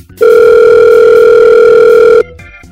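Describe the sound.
Telephone dial tone while placing a call: one loud, unbroken, steady mid-pitched hum lasting about two seconds, then cutting off into quiet.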